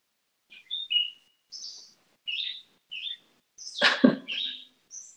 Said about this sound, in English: the sweetness of the birds right outside your window